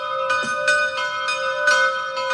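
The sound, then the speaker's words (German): Church bells ringing at noon somewhere in Salzburg: a full, resonant peal of many overlapping strikes that blend into a sustained, shimmering ring with no voices. “Das sind die Glocken von heute.”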